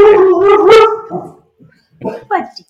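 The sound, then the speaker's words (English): A dog barks: a drawn-out, whining yowl that wavers in pitch, then a short pause and two quick, sharper barks. “Those were barks in solidarity with the union.”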